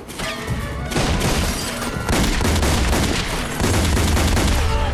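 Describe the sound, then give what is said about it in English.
Gunfire in an indoor shootout, with shots traded while someone slides across the floor. The firing is loud, dense and continuous, with sharp cracks piling over one another and no clear gaps for the whole stretch. “He grabs the gun and fires back, sliding across the floor.”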